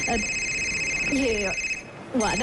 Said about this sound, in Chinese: 我接个电话啊